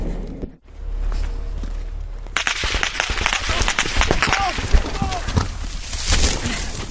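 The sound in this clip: Gunfire crackles near a compound between fields where soldiers are moving on foot. After a brief quieter start, many sharp cracks arrive in irregular clusters, loud and nearly continuous.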